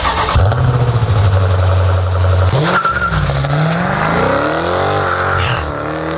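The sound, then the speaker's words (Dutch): Deep, loud rumble of a Hemi V8 engine revving: a steady low drone that dips briefly, then climbs in pitch as the revs rise, running continuously throughout. “Maar we gaan het wel missen, het geluid van die Hemi V8.”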